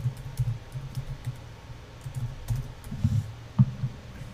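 Keys clatter on a computer keyboard, a run of light, uneven clicks in short bursts with a few sharper taps near the end, and no talk.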